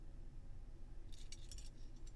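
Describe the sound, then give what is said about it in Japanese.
Keys jangle as they are handled: a few faint, bright metallic clinks and rattles in the second half, over a low steady rumble. “まずは鍵を、そしてケースとリング。”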